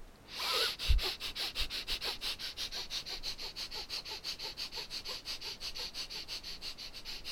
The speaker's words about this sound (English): Take a couple of normal breaths. And then we'll do the breath of fire again.